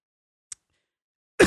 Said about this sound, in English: God, I inhaled my own spit. Oh, I hate that.